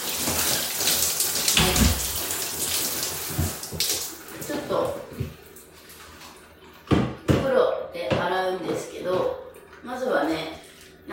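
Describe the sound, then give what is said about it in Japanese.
Water splashes in irregular bursts as someone washes their face in the bath, with quieter dripping stretches between the louder splashes. “あと私が普段はお風呂の中で顔を洗うので、ちょっと今から顔を洗います。”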